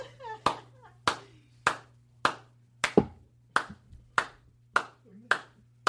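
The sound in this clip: A lone person claps for a joke at a comedy show, slow and evenly spaced, each sharp clap ringing out separately, with a voice faintly speaking in the gaps between claps.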